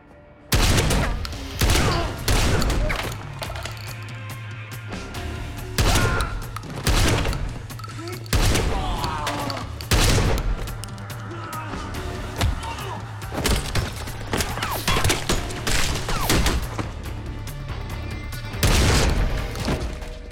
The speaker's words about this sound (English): I think that shotgun's my favorite gun sound I've ever heard.